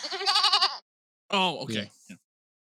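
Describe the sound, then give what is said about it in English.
Two bleats from a goat, played as a sound effect: a quavering, tremolo bleat, then a pause and a second, rougher bleat that breaks off unevenly. “There's only ever one fucking sound recorded for a goddamn goat, okay?”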